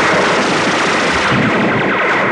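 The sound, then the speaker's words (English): A 1980s TV-style gunfire sound effect: a loud, rapid stream of machine-gun shots that fills the whole clip without pause. “Speaking of that, here's some 80s bullets for you. So this is total 80s bullets.”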